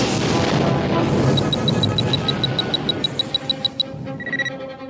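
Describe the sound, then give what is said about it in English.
A sci-fi phaser blast exploding into a starship, opening with a loud booming rumble, then a rapid series of pulsing electronic tones that fades out. “Fire phasers, Mr. Sulu. The blast exploded into Reliant.”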